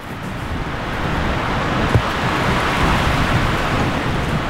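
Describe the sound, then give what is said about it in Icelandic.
Wind blowing at the seashore: a steady, dense rushing noise across the whole clip, with one brief thump near the middle and no voices. “brot úr viðtali Gretu Sigríðar við Ann Carson og tekið þarna í vindinum við ægisíðina”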